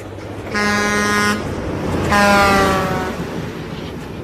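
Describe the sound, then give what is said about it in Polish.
Two long, loud train horn blasts from a freight train approaching an unguarded level crossing, over a steady low rumble, with a pause between the blasts. “Pociąg towarowy z prawej. Przejazd bez szlabanów, stawiam dychę, że zdążymy.”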